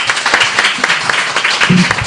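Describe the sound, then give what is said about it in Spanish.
Brief applause greets guests in a studio during a morning program: a short burst of scattered clapping from a few hands. “Os merecéis un gran aplauso, ¿eh?”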